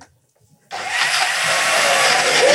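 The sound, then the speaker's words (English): A blender making a smoothie. After a short silence it switches on abruptly into a loud, steady whirring roar that holds to the end. “Who still likes smoothies? Okay, chuck the lid on. All right. You want to turn it on?”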